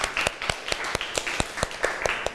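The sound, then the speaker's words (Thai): A classroom of students claps for a classmate, about ten sharp, evenly spaced claps in a quick, steady rhythm. “ค่ะขอบคุณค่ะปรบมือให้เพื่อนหน่อย”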